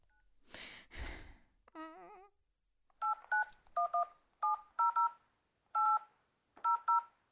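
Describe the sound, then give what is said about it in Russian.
Telephone keypad tones sound as someone dials, in a run of short, clean beeps, some in quick pairs, with brief pauses between groups. “Звоню.”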